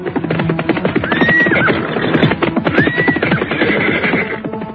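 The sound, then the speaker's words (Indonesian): Warriors ride horses hard through forest without rest. Hooves pound in a fast, continuous beat while two high neighs rise clearly above the galloping. “Mereka semua berkuda tanpa istirahat.”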